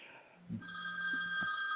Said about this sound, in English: Jonathan Ivey, let me turn the phone off